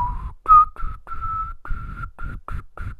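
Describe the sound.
Breathy, airy whistling of a Malibu rum commercial jingle: about eight short, steady mid-pitched tones, each carried on heavy breath noise, with no talking.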